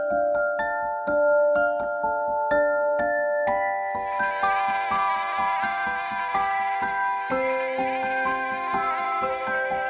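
A thin, whining mosquito buzz enters midway and holds steadily to the end. It sits high and continuous over a light plucked melody that plays throughout.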